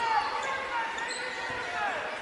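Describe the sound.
Basketball dribbling on a court during a college game involving the Jayhawks: repeated dull bounces under a constant wash of crowd noise.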